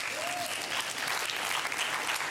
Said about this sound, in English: Yeah, clap.